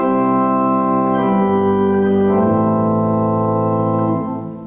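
Pipe organ chorus with 8-, 4- and 2-foot pipe ranks sounding together, a loud, steady, richly layered tone that shifts between held notes and eases slightly in volume at the end.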